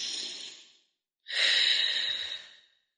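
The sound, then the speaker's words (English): A person takes a deep breath: two long, airy breath sounds separated by a short silence, the second louder and fuller, with no talking. “take a deep breath.”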